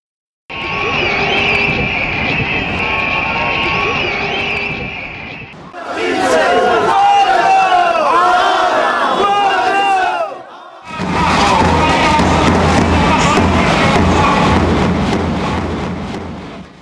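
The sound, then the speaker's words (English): Street protest crowds in the UK, Bolivia and Argentina chant loudly in three separate stretches, split by short gaps, each a dense mass of shouting voices with a rhythmic, rallying cadence. “These are the sounds of street protests in the UK, Bolivia and Argentina.”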